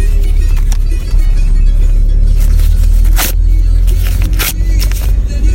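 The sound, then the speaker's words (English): A paper boarding pass is ripped up inside a cab: a few brisk tearing bursts over the steady low rumble of the car. “Me ripping up the boarding pass of the worst flight I've ever been on in our 9-year history.”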